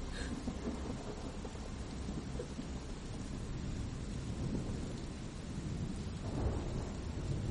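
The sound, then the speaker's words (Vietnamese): Heavy pouring rain makes a dense, unbroken roar throughout, with a deep rumble of thunder rolling underneath. “vang lên trong màn mưa ầm ầm như thác đổ”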